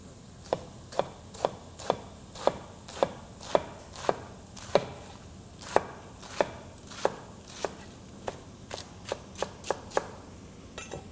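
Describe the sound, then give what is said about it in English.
A knife slices leafy greens thinly into a chiffonade for a bread and bean soup, making many crisp, sharp chops in a steady rhythm of about two per second that quicken slightly toward the end, with no talk. “And then I'm gonna cut it in a term called chiffonade, basically slice thinly.”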